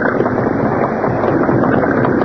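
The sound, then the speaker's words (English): Motorboat engine as a boat leaves a dock: a loud, continuous, rumbling drone that holds steady throughout, with no voices. “Boat leaving. Yes. We're a little too late.”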